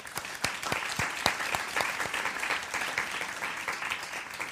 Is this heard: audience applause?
yes